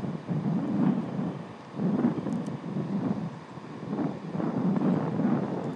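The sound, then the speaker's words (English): Strong wind gusting through a railway station, a deep continuous rumble and buffeting that surges and eases in several waves, loud throughout with no voices. “if they wanted to create a wind tunnel at Reading, they've done an absolutely splendid job.”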